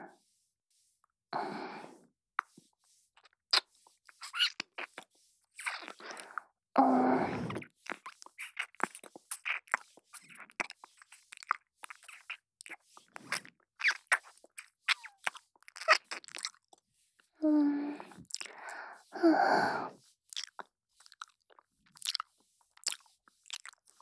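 A person eats crunchy food, with many crisp bites and crunches and some soft chewing, irregular in rhythm and faint throughout.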